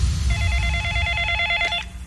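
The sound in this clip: A telephone rings for an incoming call: one burst of bright, warbling electronic bell tones that trills rapidly at a steady pitch for about a second and a half over a low background hum.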